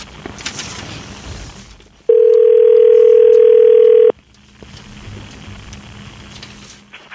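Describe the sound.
Telephone dial tone while a call is being placed: a loud, steady single-pitch tone lasting about two seconds that starts and stops abruptly, with quieter background noise before and after.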